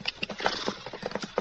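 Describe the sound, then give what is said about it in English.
Hooves of a horse clip-clopping in a quick, uneven run of hollow knocks, moderately loud and with no voices over them. “That horse doesn't belong at the center. Wonder whose it is.”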